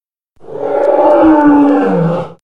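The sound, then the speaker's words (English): A fierce lion roaring: one long, loud, deep, growling roar that swells and then fades out over about two seconds, heard alone. “Suddenly, a fierce lion jumped from the trees and roared at them.”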